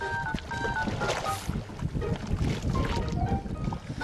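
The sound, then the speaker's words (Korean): Oars splash and gurgle as a fisherman rows a small boat out toward a trout farm. A few watery strokes come with light wind noise throughout. “작은 조각배를 타고 노를 몇 번 젓자 안에 무언가가 잔뜩 든 그물이 나타납니다.”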